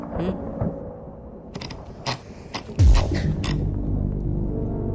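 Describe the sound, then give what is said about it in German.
Thunder from a storm arrives as a deep, heavy rumble that starts abruptly partway through and rolls on to the end, after a few sharp clicks and creaks. “Aber weil es gewittert und ich mich fürchte, trinken wir ein.”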